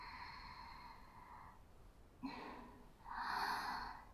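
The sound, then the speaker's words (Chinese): Slow, deep breathing in a relaxation exercise, a few faint airy inhales and exhales with brief gaps between them, the last breath the fullest and loudest. “吸气，呼气，吸气。呼气，”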